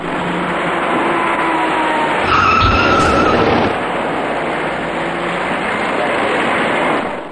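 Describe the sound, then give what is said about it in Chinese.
A fast-moving silver passenger car skids and hits a cyclist stopped in the inner lane of a multi-lane road: a brief tyre squeal and a dull low thump over constant loud road noise. “转身过后，这位骑车人被一辆快速开来的小客车撞翻在路面上”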